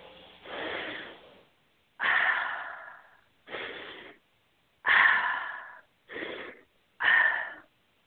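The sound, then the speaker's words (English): Deep breaths during a guided breathing session, several loud, wheezy, hissing breaths separated by short silent pauses, with no talk. “A nice deep breath.”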